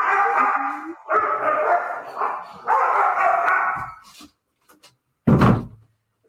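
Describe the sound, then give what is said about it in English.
A Rottweiler puppy and another dog fight, with several seconds of loud rough growling, snarling and barking. A short lull follows, then one loud thump near the end. “My Rottweiler puppy decided he wanted to fight with my other dog at that moment.”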